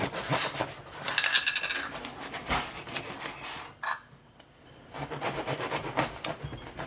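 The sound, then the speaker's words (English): Knife sawing through a crusty, fresh loaf of sourdough bread, producing dense, rasping, crunchy strokes that run loud and steady, ease into a quieter pause midway, then pick up again. “I'm going to cut the bread while you're doing that. We got a nice, crusty, fresh loaf of sourdough.”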